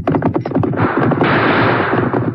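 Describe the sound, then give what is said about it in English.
Gunshots up ahead around a bend: a rapid string of sharp cracks, then a dense, noisy burst of firing. “Those shots, Tonto. Came up ahead around the bend.”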